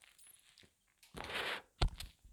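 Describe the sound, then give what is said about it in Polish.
A lighter is used to relight a cigarette: a short, soft rasping hiss, then a sharp click and a few faint ticks, all quiet and heard alone. “A teraz gasł mi papieros, więc pozwolę sobie użyć zapalniczki.”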